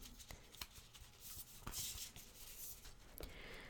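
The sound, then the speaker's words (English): Soft shuffling of an Animal Spirit oracle card deck, a quiet run of papery rubs and light taps at low level, with no talk. “I'm going to shuffle the cards.”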